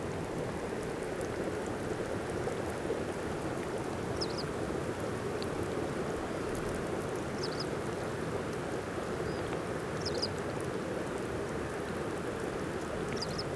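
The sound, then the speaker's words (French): Melting ice crackles in a dense, steady fizz of countless tiny pops, like bubbling champagne, with a few brief, faint high squeaks scattered over the continuous hiss. “C'est tout simplement la fonte de la glace.”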